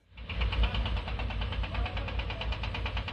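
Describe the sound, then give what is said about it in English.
Heavy machinery, including diggers, cranes and lorries, works at a hillside site near Hebron: a steady low engine rumble with a rapid, even knocking pulse running throughout. “This is the sound of the heavy machinery that's reshaping the landscape in the hills of Hebron. Diggers, cranes and six lorries delivering high-end caravans.”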